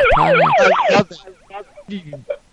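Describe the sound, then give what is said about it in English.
A toy police car siren wailing in fast, high warbling sweeps. It is loud for about a second, then trails off into quieter, broken warbles and a few short bursts. “Is that a toy police car coming through the internet to give me? Do you sell that device?”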